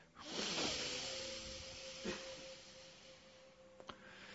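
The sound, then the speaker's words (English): A deep, forceful exhale during a breathing exercise comes as one long, breathy hiss that swells quickly and slowly tapers, faint and alone. “We will start exhaling very deeply, almost forcefully.”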